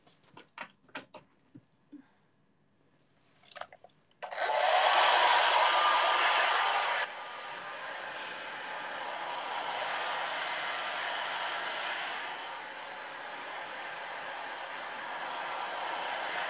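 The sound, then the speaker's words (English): A Hitachi hair dryer switches on after a few faint clicks and handling noises, then blows a loud, steady whooshing roar that eases slightly in level after a few seconds and keeps running. “It's a Hitachi dryer.”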